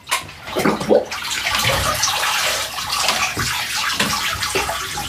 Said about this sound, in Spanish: Mira, los dos pies se lo está lavando.